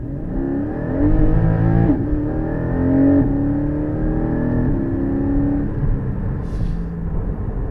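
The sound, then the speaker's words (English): A Porsche Cayman GT4 sports car driving on the road, its loud engine note repeatedly climbing in pitch, then dropping back at a few gear changes, with a steady underlying rumble and no talk. “let's get some impressions of this Porsche Cayman GT4 out on the road”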